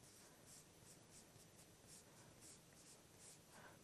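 Handwriting on paper as sentences are written out during a lesson: many faint, short scratchy strokes in an uneven rhythm, with no voices.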